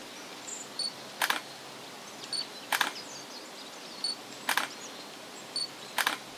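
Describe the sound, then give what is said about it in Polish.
Camera shutter clicks while crime scene photos are taken of a strangled woman's body, four sharp, evenly spaced clicks over a quiet, hissy background. “Dobra, niczego nie dotykaj. Zdjęcia trzeba zrobić. Już robię, robię.”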